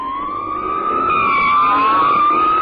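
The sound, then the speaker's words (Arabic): A police emergency vehicle siren wails loudly and continuously, its tone sweeping slowly up and down in pitch, with no voices over it. “بوليس النجدة جه في وقته.”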